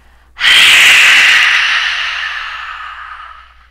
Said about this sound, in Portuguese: Você vai soltar todo o ar, inspirar o mínimo possível e soltar o ar.